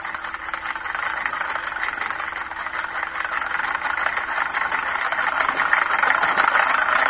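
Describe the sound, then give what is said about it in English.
Steady whirring rattle of a spinning wheel turning flax into thread, a continuous mechanical hum that grows slightly louder toward the end, with no voices. “The next sound you hear will be that of a spinning wheel.”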